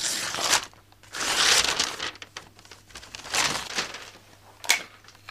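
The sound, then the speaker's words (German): Birthday presents being unwrapped, with paper crinkling, crumpling and tearing in several loud bursts of rustling separated by quieter pauses, and no talk. “Darf ich jetzt die Geschenke auspacken?”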